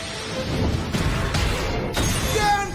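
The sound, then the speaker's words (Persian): Explosion during an arena battle: a few sharp crashing bursts over a dense, rumbling roar of noise. “انفجار.”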